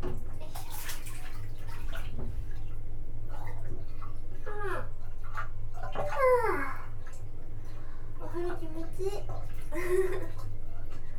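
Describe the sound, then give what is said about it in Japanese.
Hot water runs into a full bathtub with a constant low, rushing wash, while a person talks at times over it. “お湯がいっぱいだから高いな。めちゃめちゃお湯流れてるけど。”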